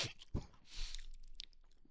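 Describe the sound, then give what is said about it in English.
Chewing and lip smacking while someone eats a frosted pastry with frosting inside. A few crunchy bites are followed by soft, continuous, moist chewing. “All right, everybody just close your eyes and eat it. And let's do ASMR. It's very good, guys. I'm not going to. No. Stop smacking your lips.”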